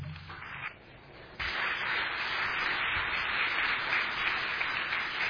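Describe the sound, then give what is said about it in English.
Rousing audience applause welcoming a speaker at a church gathering. The dense, steady clapping bursts in after a brief quieter opening and holds at an even level to the end. “Well, thank you for that rousing ovation.”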